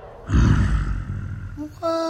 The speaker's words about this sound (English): Princess Peach pounds on the doors, which are suddenly flung open by an enormous blonde gorilla who roars.